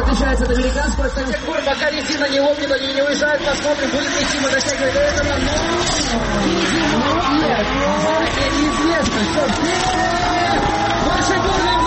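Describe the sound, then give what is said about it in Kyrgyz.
Cars drift at a bikers' festival. Loud, unbroken engine roar, with revs swinging up and down and tires squealing, sits under the steady chatter of a crowd. “Байкер досторун майрамы менен куттуктап, авто сүйүүчүлөрү дрифт өнөрүн көрсөтөт.”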